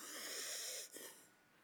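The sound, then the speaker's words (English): A person breathing deeply by lifting the shoulders: one long, faint, wheezy inhalation with a hissing, airy tone that breaks off and then tails away more softly. “When you say to someone, breathe deeply, here's normally what I get.”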